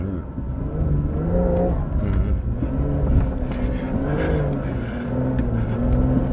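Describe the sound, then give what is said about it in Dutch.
A car engine revs while driving up a sand dune with stability control switched off, making a loud, continuous droning note that wavers up and down in pitch throughout. “je rijdt zo'n zandduin op en je ziet helemaal niks”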